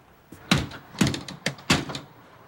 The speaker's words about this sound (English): The safety chain catches the forced door.